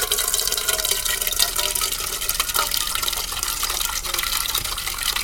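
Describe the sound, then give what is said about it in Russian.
Water runs from a tap into a cooking pot, a steady, full rushing hiss with faint splashing that continues evenly from start to end without a break. “Кука набирает в кастрюлю воду из крана.”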